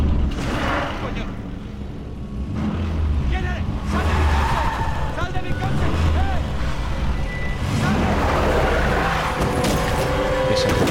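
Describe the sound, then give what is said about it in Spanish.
A car engine on a city street makes loud, continuous vehicle noise that persists throughout, mixed with other rumbling and rushing sounds. “Dobla la esquina para montar en su coche cuando el motor de este se enciende y las luces lo deslumbran.”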